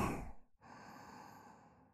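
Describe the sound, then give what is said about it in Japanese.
A deep, breathy exhale during a guided breathing exercise. The long sigh trails off into quiet. “モヤモヤとかドロドロした悪いもの全部空気と一緒に吐き出すの。いい？吸って”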